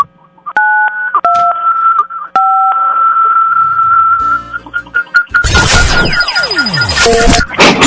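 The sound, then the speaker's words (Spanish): Telephone keypad tones dialing 925 to set a prize wheel spinning: a few steady, clear beeps, then a loud, dense burst of noisy clattering sweeps that runs to the end. “Picarle al 925 en tu teléfono para que gire la ruleta”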